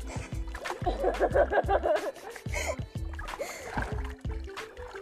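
Splashing from a video game character swimming through water: a steady run of many sharp, rhythmic splash strokes with sloshing between them, fairly quiet overall.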